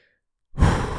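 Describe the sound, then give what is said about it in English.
A deep breath, heard as one loud, rushing, breathy exhale that starts abruptly after half a second of silence and carries on steadily to the end. “Deep breath. Breathe in. Breathe out.”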